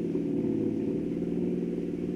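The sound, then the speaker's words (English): A pickup truck drives along a rough road, its engine giving a steady, mid-pitched drone that holds constant throughout, with no voices. “Might have selected something more comfortable than a pickup truck. Roads like this, you'd ruin a good car.”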